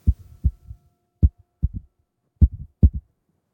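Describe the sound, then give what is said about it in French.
A heartbeat heard alone as deep, muffled low thumps that come in loose pairs, separated by short silences. “Et même son cœur fait.”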